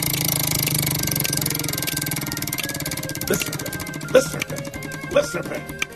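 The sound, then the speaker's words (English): Rapid clicking of a prize wheel spun for a song pick, a dense run of ticks over background music, the clicks turning sharper and more distinct in the second half. “Let's spin the wheel.”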